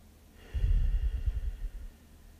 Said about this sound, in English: Deep breath.